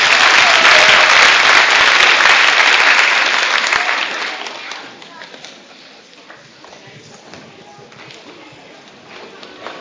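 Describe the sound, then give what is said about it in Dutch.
Applause from a church audience after a song in a service: loud, dense clapping for about four seconds, then fading to a quieter, thinner patter, with voices present. “Mooi hoor, vast een applausje verdiend.”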